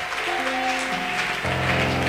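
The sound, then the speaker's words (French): Church audience applauding to acclaim the Lord during a Holy Communion service: a dense, steady wash of clapping over sustained keyboard tones that shift to a new chord midway. “Est-ce que vous pouvez d'abord acclamer le Seigneur pour vous-même?”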